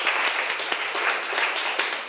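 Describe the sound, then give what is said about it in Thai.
Applause from a classroom of students for a classmate who answered correctly. Many hands clap together in a brief, dense, fairly loud burst. “ถูกต้องค่ะเก่งมากปรบมือให้เพื่อนหน่อย”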